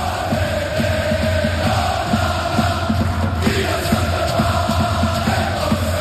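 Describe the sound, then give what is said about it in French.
A sold-out football stadium crowd of more than 17,000 fired-up supporters roars continuously, with a dense, loud wall of yelling and cheering and faint rhythmic pulses running beneath it. “Un public lui-même chauffé à blanc, et dans le stade ça devrait ressembler à peu près à ça.”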